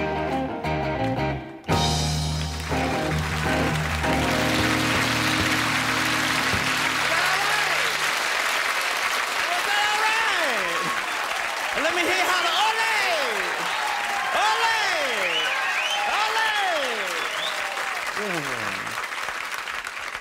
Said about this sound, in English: Sounds like one of those groovy festivals.